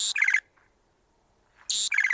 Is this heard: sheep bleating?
no